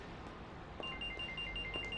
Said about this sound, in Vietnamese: Điện thoại.